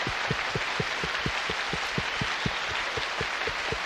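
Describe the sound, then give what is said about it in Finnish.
Congregation applause at a church service: dense, continuous clapping with a steady, evenly spaced low thump pulsing beneath it from start to finish. “Annetaan taputukset Jeesukselle!”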